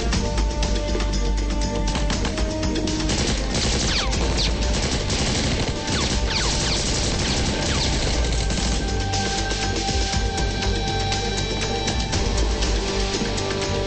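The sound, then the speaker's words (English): Gunfire rips through a shootout with terrorists on a rooftop and stairwell, many sharp shots and crashes merging into a dense, loud, unbroken barrage that runs the whole stretch. “They shoot at Glass, and he goes down the stairs.”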